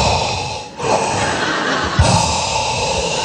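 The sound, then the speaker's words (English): A man imitates the heavy breathing of a late-night prank phone call with loud, drawn-out, raspy breaths and a short pause, plus a brief thud partway through. “I got the classic, I got a heavy breathing phone call.”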